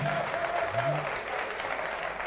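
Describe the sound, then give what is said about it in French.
An audience applauds with dense, sustained clapping that stays even and fairly loud from start to finish, a continuous crackling wash of many hands. “Merci d'applaudir pour vous-même.”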